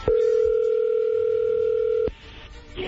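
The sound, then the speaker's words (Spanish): Telephone tone as a call is dialed: a single steady, loud electronic tone holds for about two seconds, then cuts off abruptly, leaving faint line noise. “A ver, vamos a marcarle”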